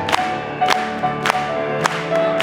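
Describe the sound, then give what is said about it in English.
Church audience clapping in time with music: five sharp, evenly spaced claps land on a steady beat over sustained, held musical tones. “Let's just clap it to him.”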